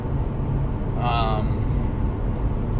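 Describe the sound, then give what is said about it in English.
Low, steady road rumble fills the inside of a car while it is being driven, with a person talking over it. “if there's a lot of background noise, it's because I'm driving right now.”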